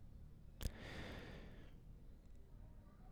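A single breath, one soft exhalation opening with a brief click and then fading into a long airy rush, very quiet and alone.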